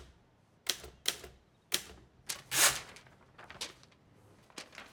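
Typewriter keys struck while writing, a series of crisp mechanical clacks at an irregular pace, one louder heavier strike midway, over a quiet background.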